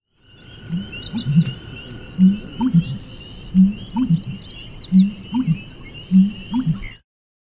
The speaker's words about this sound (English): Rusty Blackbird.